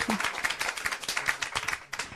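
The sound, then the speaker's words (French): Audience applause at a public talk on rural life: a faint, dense patter of many hands clapping keeps a quick, irregular rhythm for the full two seconds. “J'espère que vous allez tous les applaudir comme ça.”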